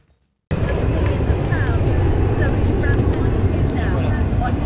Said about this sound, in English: And what a beautiful takeoff, ladies and gentlemen. Mothership Eve will take several minutes to climb altitude and position for the release of Unity 22.